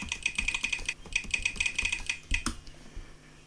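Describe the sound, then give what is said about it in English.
Rapid typing on a computer keyboard as a password is entered on a Mac, with many crisp, closely spaced keystrokes in quick bursts, a short pause near the start, one louder final clack, then quiet. “Required secure edit text. Type in my password.”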